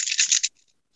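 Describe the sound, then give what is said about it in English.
Seven dice rolled during a Tales from the Loop tabletop RPG game: a dense half-second clatter of bright, crisp clicks as they tumble together, then a few faint ticks as they come to rest. “7 dice. That's 1, 2, 3, 4, 5, 6. Ooh, here's 7. All right, come on, be spectacular.”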